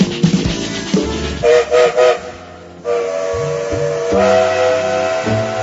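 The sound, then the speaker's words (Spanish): Steam train whistle and a train setting off: loud hissing and clanking bursts open, followed by three short whistle toots, then long sustained whistle blasts over low rumbling. “Como todos los días, el tren se pone en movimiento. Ustedes ya escucharon el silbato y significa que ya estamos en marcha.”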